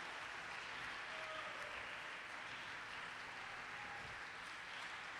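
A church audience applauds in sustained, dense clapping that stays steady and fairly quiet throughout, with no talking over it.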